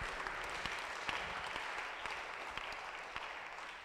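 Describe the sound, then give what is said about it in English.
Congregation clapping hands at a church service, a dense, steady stream of many hands clapping at once that keeps up evenly for the whole stretch, with no talk over it. “Clap your hands for the Lord.”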